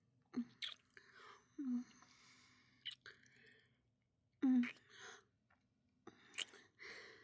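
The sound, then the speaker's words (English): Soft, wet kissing sounds from a woman's lips, with several quiet smacks scattered between silent pauses. “Let mommy kiss all your stress away from your sweet lips.”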